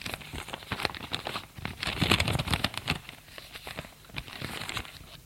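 A paper envelope being opened: crisp crinkling, tearing and rustling paper sounds made of many quick crackles, busiest and loudest through the middle, then easing into softer handling noises.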